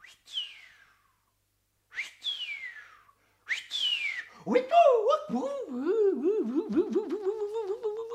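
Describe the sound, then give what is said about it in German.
A voice imitates spooky ghost noises: the cartoon goblin Pumuckl practising eerie sounds. Three high, whistle-like swoops each slide downward, then a continuous wobbling, warbling hoot wavers up and down. “Er wollte die allerunheimlichsten Geräusche machen. Er sauste nach Hause und begann gleich zu üben.”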